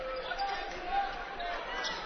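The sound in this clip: A basketball is dribbled during a college game between Truman State and Northwest, making a steady run of low, rhythmic bounces beneath a commentator's voice.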